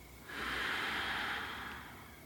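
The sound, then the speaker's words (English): A slow, deep breath taken during a relaxation exercise, heard as one soft, sustained airy rush over faint background hiss, swelling gently and tapering off without any speech. “Another deep breath in and out.”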